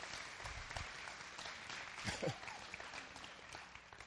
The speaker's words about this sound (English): Can we give Dawn a hand for her work?